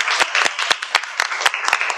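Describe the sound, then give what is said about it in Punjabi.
Loud applause erupts for a student's song at a school event, a dense burst of many clapping hands with sharp individual claps standing out from the steady roar. “ਬਹੁਤ ਅੱਛੇ, ਸ਼ਾਬਾਸ਼, ਜ਼ੋਰਦਾਰ ਤਾੜੀਆਂ।”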